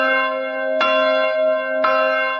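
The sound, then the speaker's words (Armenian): Armenian church bells ring out. Two loud, heavy strikes land about a second apart, over a deep, steady, humming resonance that sustains throughout. “Այսօր հայոց եկեղեցու զանգերը արահոտից ձայնում են աշխարհով մեկ։”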